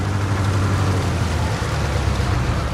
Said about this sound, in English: A Greyhound bus sedately motors up to a stop beside a fountain.